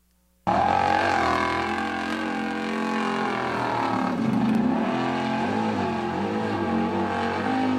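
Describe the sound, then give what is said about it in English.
A four-wheel drive engine roars as the vehicle tries to climb a near-vertical cliff. The sound starts abruptly and stays loud and continuous, its strained pitch wavering throughout. “Here's a little video that I saw about a four-wheel drive trying to hit almost a straight up cliff.”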